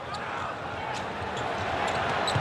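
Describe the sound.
A basketball is dribbled up the court during a game, its faint rhythmic thuds nearly buried under a loud, steady crowd roar.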